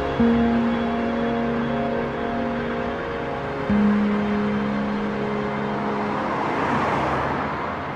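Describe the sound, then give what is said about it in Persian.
A car drives along a highway with a steady drone of engine and road noise, a low constant hum underneath and a slight broad swell near the end. “تصویر حرکت ماشین بهمن از اتوبان.”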